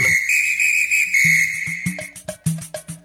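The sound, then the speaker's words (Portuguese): A referee's whistle at a football match gives one long, steady, high blast of about two seconds, then a rapid run of short, sharp pulses. “Fique de olho no apito.”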